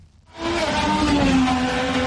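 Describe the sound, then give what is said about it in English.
Race car engines roar through the streets of Washington DC, 25 drivers racing past the Capitol at over 300 km/h. A brief quiet gives way to a loud, sustained engine drone with a steady tonal whine that holds to the end. “President Trump waved the green flag and then they were off. 25 drivers roaring through the Capitol's streets.”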